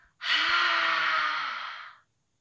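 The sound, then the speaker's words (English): A person blows a long, forceful breath out through the mouth, imitating a dragon's fiery breath in a breathing exercise; one breathy, hissing exhale of nearly two seconds that starts sharply and cuts off cleanly. “when you blow out, I want you to blow out your mouth and make a dragon sound like this.”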